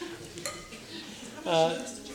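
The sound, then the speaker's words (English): Stirring of a stiff batter thick with chopped walnuts, a spoon dragging and scraping in soft uneven strokes at low volume, with a brief louder swell partway through. “First of all, Antoine, why don't we just take and stir that up and mix it real good before we put the dates? With this thing, yeah? Yes, because as we go along, it's going to get stiffer”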